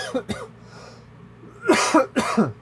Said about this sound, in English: Your coughs are always so aggressive. Anytime he coughs, he sounds like he's dying of the plague.